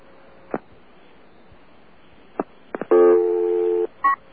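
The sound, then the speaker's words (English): Telephone dialing tones: a few short clicks, then one sustained electronic multi-tone lasting nearly a second, and finally a brief beep. No one speaks. “Dialing.”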